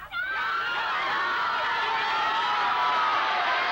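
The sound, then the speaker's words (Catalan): A cartoon arena crowd in Dragon Ball cheers and shouts enthusiastically, a loud, dense, unbroken roar of many voices that holds steady throughout. “El públic, sorprès, reacciona entusiasmat.”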